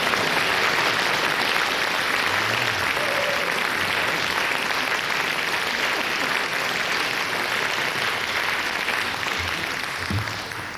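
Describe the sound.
Live studio audience applause in Studio 2 of Bayerischer Rundfunk after a free-improvisation concert with trombone, piano, percussion and violin: dense, loud, continuous clapping that holds steady throughout and eases slightly at the very end.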